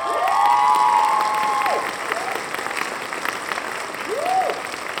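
An audience applauds to welcome a guest. Steady clapping runs throughout, joined by a few sliding whistle-like tones.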